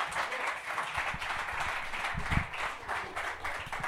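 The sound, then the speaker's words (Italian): Audience applause welcoming a first-time performer onto the stage at a comedy show, a steady, fairly faint patter of many hands clapping that continues evenly throughout. “Applauso a questo giovane esordiente.”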